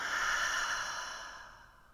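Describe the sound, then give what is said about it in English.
A single long breath through the nose during a guided relaxation breathing exercise: a soft, airy hiss that holds steady, then gradually fades toward the end, with no talking. “take a big breath in through the nose. Big exhale out.”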